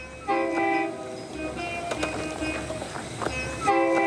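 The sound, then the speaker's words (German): A forty-year-old diesel railcar train sounds its horn in several loud blasts, with quieter tones between them over a low running rumble. “An die 4 Züge am Tag sind sie seit Generationen gewöhnt. Vierzig Jahre alte Dieseltriebwagen fahren auf einer fast dreimal”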